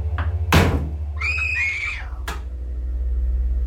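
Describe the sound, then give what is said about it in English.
A bathroom mirror cabinet bangs sharply, gives a drawn-out, high-pitched creak as it swings, then slams shut with a second hard thud, all over a low steady hum. “they could see the mirror in the bathroom slowly open, then slammed shut.”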